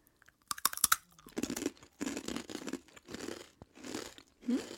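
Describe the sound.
Tteokbokki-flavoured chips are crunched and chewed: a few sharp, brittle bites, then repeated crunchy chewing bursts at an even rhythm, faint and with no talk over them.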